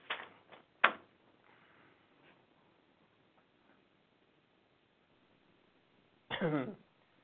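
Throat clearing from a piece of lint caught in a man's throat: a few short rough bursts close together at the start, a long quiet pause, then a longer harsher clearing, each alone against near silence.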